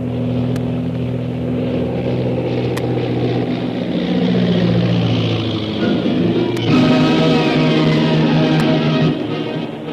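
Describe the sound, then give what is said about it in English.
Engine drone of a powerful seaplane coming in to land, a loud, steady hum with strong low harmonics that shifts to a brighter, slightly louder tone about two-thirds of the way through. “As the powerful seaplane bearing Shanghai Lil and her captors, Karnak the Killer and Koa, made a safe landing”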